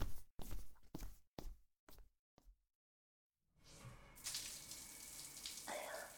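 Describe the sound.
Water starts running for a bath or shower after a few soft thuds and a short silence. It swells into a steady hissing rush that stays fairly faint and continues to the end.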